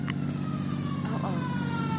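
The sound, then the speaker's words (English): An emergency siren wails faintly over a constant low rumble of a vehicle engine, its tone sliding across a sustained drone. “Uh-oh, here comes that siren. Probably another accident.”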